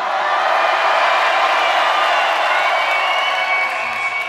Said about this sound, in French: on va péter l'applaudimètre du Zénith ce soir.